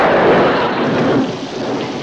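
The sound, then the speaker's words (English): Thunderstorm sound effect for a radio drama: a loud, continuous wash of heavy rain with a deep rolling thunder rumble beneath it, sustained throughout without pause. “We can't just stand out here in the rain.”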